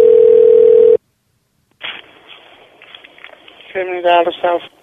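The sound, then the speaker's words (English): A telephone call line gives a loud, steady single tone for about a second, then cuts off into near silence. Faint line noise follows, and a voice speaks near the end. “Okay, let's try one more time, I guess. Maybe two more times. Oh, that one's busy. We'll try the next one.”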